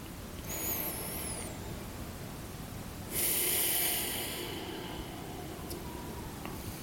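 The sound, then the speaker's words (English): A deep breath taken during a guided relaxation exercise: a faint, short airy intake through the nose, then a longer, louder breathy exhale with a soft hiss, alone and quiet. “one more breath.”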